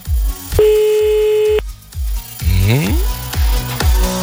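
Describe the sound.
An outgoing telephone call gives a single steady ringback tone lasting about a second. It plays over a rhythmic thumping beat, and a sweeping tonal effect follows it.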